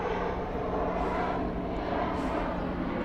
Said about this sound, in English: Somebody flying in from Yonkers, going to LaGuardia.